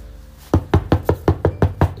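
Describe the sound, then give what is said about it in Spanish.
Knocking on a house door: eight firm, evenly spaced raps in a steady rhythm, loud and alone with no talk. “Vuelven a tocar la puerta de casa de Rabá”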